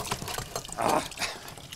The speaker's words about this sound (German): Den Eimer in die Hand, ist ja logisch, dass es daneben spritzt.